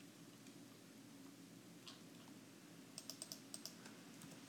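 Typing on a computer keyboard: a quick burst of several faint key clicks over a low steady hum, with a few isolated taps before it.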